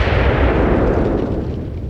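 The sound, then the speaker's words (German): Deafening explosion of a rocket striking a generator building in a camp: a continuous heavy, rumbling roar with strong low-end weight that slowly fades over its course. “Und im selben Moment, in dem ich begriff, dass es eine Rakete war, zerriss ein gigantischer, ohrenbetäubender Knall die Stille des Lagers.”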